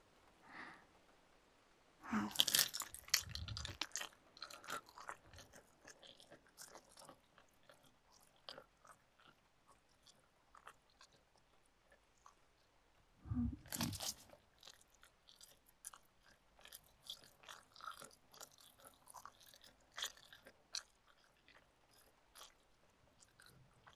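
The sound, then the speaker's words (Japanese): ASMR ear nibbling and eating sounds, with soft wet nibbles, bites and chewing close to the microphone. The sounds are mostly faint and scattered, with two louder, denser bursts of munching. “じっくりお耳をつまみ食いしちゃっていいよね。ちょっとだけだから許してね。”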